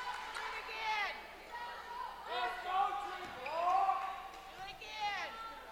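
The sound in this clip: Basketball dribbled on the court before a free throw in a Wisconsin versus Ball State game, a few bounces heard under a commentator's steady play-by-play.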